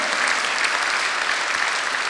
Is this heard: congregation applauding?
yes